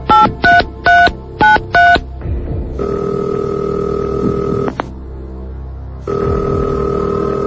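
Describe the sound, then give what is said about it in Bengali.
Telephone keypad tones placing a call: five quick, even beeps, followed by a long steady ringing tone that pauses, then sounds again. “আমি এখনই আপনাকে ফোনে connect করে দিচ্ছি, তবে তার আগে আরেকবার প্রশ্নটি বলছি। না না, প্রশ্নের দরকার নাই, আপনি লাইন লাগান তাড়াতাড়ি। আচ্ছা আচ্ছা আচ্ছা, আমরা ফোন কলে চলে যাচ্ছি।”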